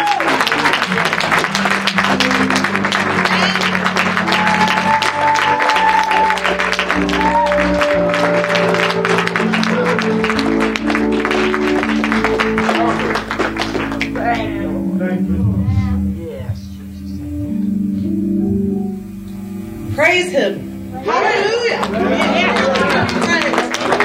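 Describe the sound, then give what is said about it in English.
A church audience applauds to welcome a preacher, with steady loud clapping and voices over music that thins out partway through, leaving quieter talk near the end. “I want you to put your hands together and welcome Evangelist Grant as she comes to minister.”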